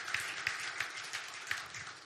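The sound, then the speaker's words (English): Soft clapping of praise from a church audience honoring an evangelist. A few sharper claps stand out over a faint, scattered patter. “Let's give the Lord a clap of praise once again.”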